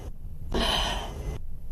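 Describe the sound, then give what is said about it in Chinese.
A sharp inhalation as someone draws a breath before giving mouth-to-mouth rescue breathing in a CPR demonstration: a single breathy rush of air lasting about a second, with no talk. “用你的嘴包住病人的嘴，吸一口气。”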